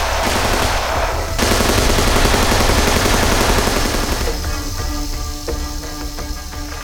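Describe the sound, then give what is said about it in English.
Gunfire in a battle scene, a dense, continuous roar of shots that turns into rapid, crackling bursts of machine-gun fire toward the end, with no voices. “Enough! Fire, Brick! Fire!”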